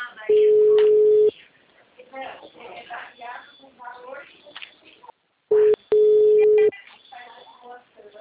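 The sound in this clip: An unanswered telephone call: a few long, steady, mid-pitched ringback beeps separated by stretches where people talk, the tone returning twice near the end, once briefly and once held.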